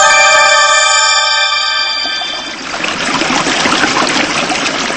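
Rushing water of a mountain river in the Qakh area: sustained steady tones fade out as a broad, even hiss of flowing water swells in and continues loudly to the end, with no voices.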